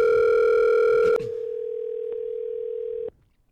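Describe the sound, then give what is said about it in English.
Telephone dial tone heard while placing a call: a steady tone switches abruptly about a second in to a thinner, single steady tone. That tone holds for two more seconds, then cuts off. “Let's get Foster on the line”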